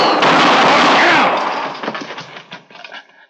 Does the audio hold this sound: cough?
no

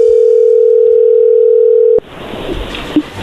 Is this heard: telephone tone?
yes

